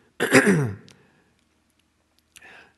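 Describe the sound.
A person clears their throat once in a loud, rough, raspy rasp lasting about half a second. After a pause comes a short, faint vocal sound.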